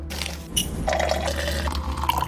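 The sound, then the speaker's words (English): Hot coffee pours into a cup as a quiet liquid stream that gurgles briefly, then settles into a filling tone that edges upward in pitch as the cup fills. “You wake up in the morning, pour yourself a hot cup of coffee,”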